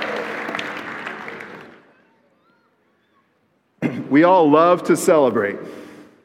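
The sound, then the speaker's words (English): Crowd applause for the kids at a celebratory event. Steady clapping fades out over about two seconds, followed by a short silence, and then a person begins talking. “Can you guys make some noise for our kids today?”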